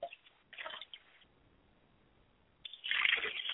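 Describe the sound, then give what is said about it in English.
Water is poured onto the ground as a libation during a purification ritual, heard as a brief splashing burst at first, then a quiet gap, then a louder, steadier pouring splash. “As the water pours to the ground”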